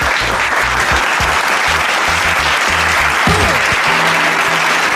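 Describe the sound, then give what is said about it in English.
Audience applause welcoming the host of a sports talk show, a loud, dense and steady clapping that runs without a break through the whole clip. “And now, please give it up for your host, Big Lou.”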